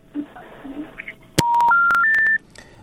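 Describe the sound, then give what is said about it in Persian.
A sharp click is followed by three steady telephone tones, each a step higher than the last, after a listener's call to a radio phone-in show disconnects. “فکر میکنم قطع شد”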